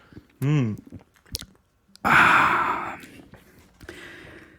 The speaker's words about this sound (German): Ja, aber pro Bier, ich nehme mal einen Schluck, warte.